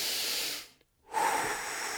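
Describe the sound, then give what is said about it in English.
Deep breathing through the nose, heard as a long, airy hiss that fades into a brief silence before more breathy rushing resumes. The sound is soft and close, with no talking. “He's going to take a big deep breath through his nose.”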